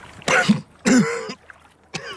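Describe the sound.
A person coughs in three rough, husky bursts. The first two are longer and close together, and a shorter third follows after a pause.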